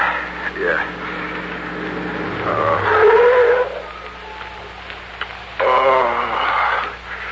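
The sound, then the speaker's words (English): A car pulls off the road and stops, its tires skidding, while voices talk over it. “Pull up at the side of the road. Look, up ahead, a gas station closed for the night. We can park there.”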